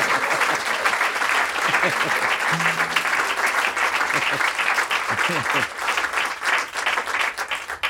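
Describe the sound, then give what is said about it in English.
Audience applause at a live music show for a fast-playing guitarist who uses metal picks. Dense, steady clapping runs throughout while a man talks over it. “Little hand for Rob McCurry.”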